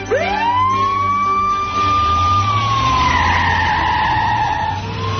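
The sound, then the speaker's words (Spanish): Police siren wailing loud and unbroken. Its pitch sweeps sharply upward at the start, holds a long steady tone, then dips and wavers before climbing again at the end. No barking is evident. “Bueno, pero ¿esto qué es? Sirenas, policía, ladridos.”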